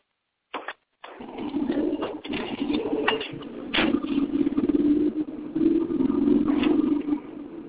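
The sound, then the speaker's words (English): Steady low drone inside a car, continuous after a short burst at the start, with a few brief louder bumps rising out of the hum. “So in case anybody's wondering, we are now in the car.”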